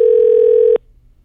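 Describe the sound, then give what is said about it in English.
A single steady ringback tone sounds on an outgoing telephone call. The clear, even pitch holds for under a second, then cuts off abruptly into near silence. “Never had to go three rings before. Pick up.”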